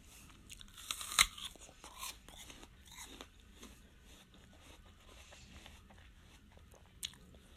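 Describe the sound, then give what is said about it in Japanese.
Crisp biting and chewing of a large, heavy, sweet apple: one loud sharp crunch near the start, then a few softer chewing crunches and a later crisp snap, all fairly quiet with no talk. “非常にずっしり重い食べがいの、食べ出のあるりんごなんですけど”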